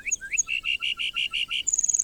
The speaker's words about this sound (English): Why do so many species of birds choose the northern Great Plains to raise their young? Like the lark bunting,